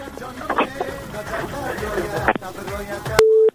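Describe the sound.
A single steady telephone tone, like a busy signal after a dropped call, sounds loudly and alone for a moment at the very end, right after people talk.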